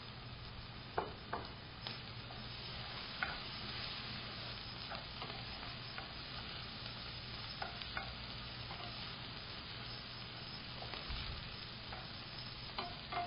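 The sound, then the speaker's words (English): Onions fry in a pan with curry leaves and chopped green chili, giving a faint, steady sizzle broken by a few soft clicks of stirring. “While your onions are getting cooked, add curry leaves and chopped green chili.”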